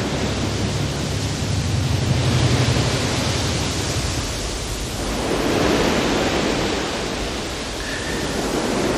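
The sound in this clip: Sea waves rush in a song as a steady, dense hiss of surf that swells and ebbs, fairly loud and with no voices.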